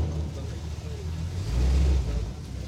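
A car drives on a vineyard tour through a steep site, its low engine rumble steady with a brief swell midway.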